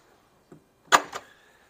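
A door is shut during a Bible study gathering: a faint tap, then one loud sharp slam and a quieter knock right after, with silence around them.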